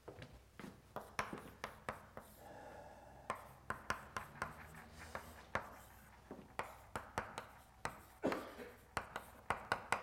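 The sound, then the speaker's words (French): Faint tapping and scratching as a simplified Chinese character is written on a board, with many quick, irregular strokes in a rapid, uneven rhythm and no talking. “Je l'écris là, ce caractère simplifié, ça va plus vite.”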